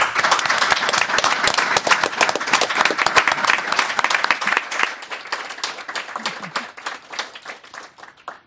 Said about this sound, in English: Thank you so much for the program you've presented tonight, and let's give them a great big hand.